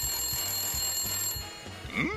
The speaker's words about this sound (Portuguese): Peraí, telefone, eu já volto.